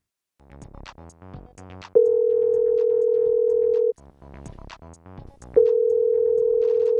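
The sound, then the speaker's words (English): A voicemail system plays a short tinkling melodic phrase followed by a long, steady beep tone, then repeats the pattern, with each flat, mid-pitched tone holding for a couple of seconds before cutting off. “You have reached voicemail. Please begin talking after the tone.”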